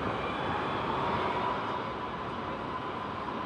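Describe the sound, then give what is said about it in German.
Steady, loud roar of an Airbus A320 airliner flying in to land at Frankfurt airport after a short flight from Zürich. The broad, even engine noise holds at a constant level throughout, with no talking. “Wer fliegt hier als nächstes rein aus Zürich? Kommt die Swiss an mit einem Airbus A320.”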